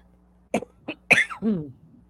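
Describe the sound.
A few sharp coughs from a person irritated by cat hair: short hacking bursts followed by a longer, voiced, throaty rasp, alone against near silence.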